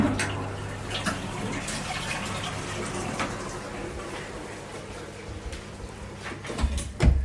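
A toilet flushes with a steady, broad rush of water that holds for several seconds and swells slightly near the end.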